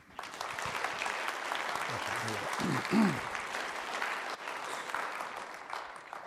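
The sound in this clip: Audience applause welcoming a preacher fills the whole stretch as a dense, steady wash of clapping that swells briefly near the middle before carrying on evenly to the end.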